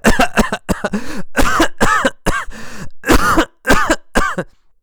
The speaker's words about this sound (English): He coughed and he coughed and he coughed and he coughed.